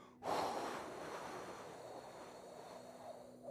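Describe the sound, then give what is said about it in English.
A person demonstrates only breathing out during a sermon: one long, continuous airy exhale that starts abruptly and slowly fades over about three seconds, with no talking. “If all you do is try to breathe out, right? All you do is just sit in there and go,”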